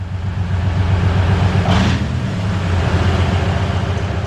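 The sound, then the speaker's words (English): Loud, continuous low engine rumble of a Soviet wheeled armored anti-aircraft missile vehicle driving into cover, with one brief hissing burst partway through. “Soldiers from the Biloetserkva Air Defense Regiment are driving their anti-aircraft missile system called OSA into cover. This giant Soviet armored vehicle on wheels is a lucrative target for Russian drones.”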